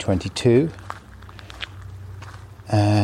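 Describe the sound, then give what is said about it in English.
Footsteps on a farm track in the east of England: a few soft, faint steps in a quiet gap between bursts of a man's speech. “And I'm going for a walk with my dog friend.”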